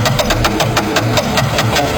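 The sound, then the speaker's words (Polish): A fortune wheel spinning in a game show, heard as fast, even ticking from many rapid clicks over a loud, dense low rumble. “Kręcimy kołem fortuny.”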